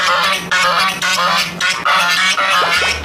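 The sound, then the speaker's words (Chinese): A guard goose honks loudly and repeatedly, giving a steady run of harsh, nasal calls with barely any gap between them. “这个是看门鹅吗？”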